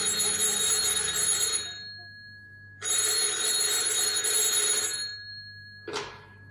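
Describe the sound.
A telephone bell rings in a radio drama: two long, bright ringing bursts separated by a pause, then the start of a third ring that is cut short.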